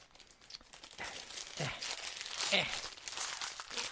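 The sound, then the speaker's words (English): Crinkly tearing and rustling as a Japanese Kit Kat wrapper bag is pulled open, with several sharp crackling bursts building over a few seconds. “There we go. I don't like the way the bags open like that.”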